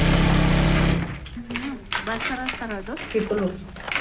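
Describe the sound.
A sewing machine runs in a workshop in Bosa, Bogotá, with a loud, steady whirring buzz for about a second before it stops and someone begins speaking.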